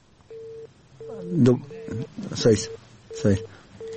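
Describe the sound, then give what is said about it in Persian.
After a caller's line drops during a phone-in, a steady telephone tone sounds in short, regular on-off pulses while voices talk over it. “خب شنونده های عزیز، تماس آقای عظیمی با ما قطع شد، دوباره کوشش میکنیم که تماس وصل شود”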